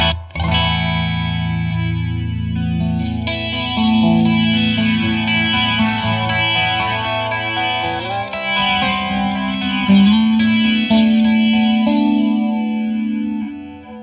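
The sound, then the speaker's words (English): An electric guitar runs through the chorus modulation of a JAM custom-shop multipedal, stacked with another modulation effect. Sustained ringing notes and chords shimmer and waver steadily throughout, rich in overtones, with no talk. “Yes, it's one of my favorite modulation effects, hands down. So let's add the chorus in because they interact.”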